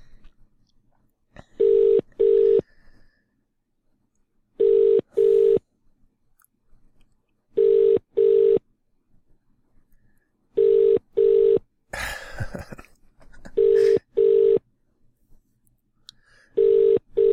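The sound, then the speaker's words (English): Ringback tone of an international call to a cell phone from Ireland: six evenly spaced double rings, each a pair of short steady buzzing bursts about three seconds apart, with a brief rustle between two of them and no voices. “So excuse the phone ringing here, and I hope this is going to work.”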